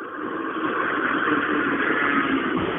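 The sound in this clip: Steady engine roar of a rally car finishing a special stage, a loud, continuous mid-range drone that holds level throughout with no distinct gear changes.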